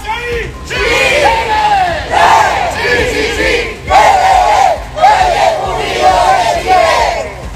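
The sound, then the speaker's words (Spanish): About a hundred Malleco Unido football fans chant loudly at a street march in the city centre. Their voices surge in repeated rhythmic phrases with brief drops in between. “ahí está parte del sonido ambiente de un centenar de hinchas de Malleco Unido que salieron a marchar durante esta tarde acá en el centro de la ciudad”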